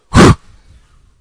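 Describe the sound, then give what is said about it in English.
One quick, forceful burst of breath: a short, sharp puff lasting about a quarter second, loud and alone, then near silence. “And once again, with a quick burst of breath, let it be done now.”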